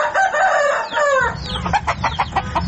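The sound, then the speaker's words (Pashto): Rooster crowing and hens clucking in a run-down courtyard with garbage in a corner, where about ten chickens roam. A long harmonic crow comes first, then a quick string of clucks over a low rumble. “تر لسو پورې چرګې چرګان پکې ګرځي”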